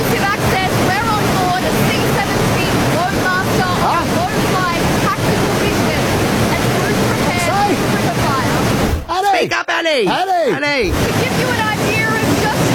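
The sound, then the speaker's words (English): The loud roar of a waterfall, a dense continuous rush that fills the whole stretch, with a person's voice briefly cutting through near the end. “To give you an idea of just how she's standing we're under a waterfall.”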